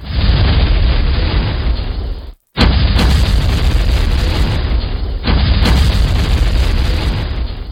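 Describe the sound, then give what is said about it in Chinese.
Explosions of carts packed with gunpowder during an ambush on a mountain road, in an old battle, make a loud, continuous roaring blast. It cuts out briefly, then surges back just as heavily. “黑车都轰轰轰咁炸开咗，原来黑车入面装满火炮”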